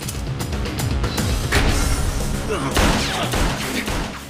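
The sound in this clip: Rapid gunfire in an action film scene, with many sharp, loud bursts firing in quick succession through a dense, continuous mix that stays loud for the whole stretch.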